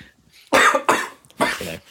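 Harsh coughing after beer went down the wrong way while drinking from the bottle: three loud, abrupt bursts in close succession after a brief quiet start.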